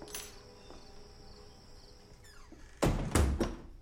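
Door sounds as someone enters a house: a few loud, sharp thuds close together near the end, after a stretch of quiet, hissy background.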